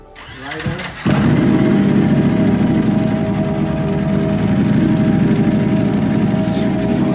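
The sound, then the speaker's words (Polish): Motorcycle engine warming up: a cranking start catches after about a second into a loud, steady idle that runs unchanged to the end. “już tu słyszę, że ktoś grzeje motocykl.”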